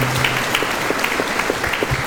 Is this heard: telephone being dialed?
no